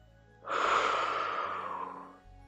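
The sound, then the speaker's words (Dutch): A single long exhale during an exercise session while rounding the back: a breathy rush of air that starts abruptly, stays fairly loud, then tapers off slowly over about two seconds, with no talk. “Maken de rug bol en ademen uit.”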